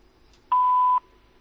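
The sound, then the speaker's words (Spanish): A voicemail beep signaling the start of message recording: a single clear, steady tone lasting about half a second, alone against near silence. “Después del tono, deja tu mensaje.”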